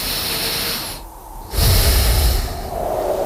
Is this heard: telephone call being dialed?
no